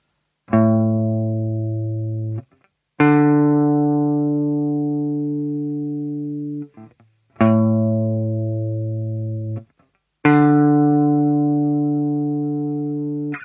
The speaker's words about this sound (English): Next up is 0-5, or the perfect fourth.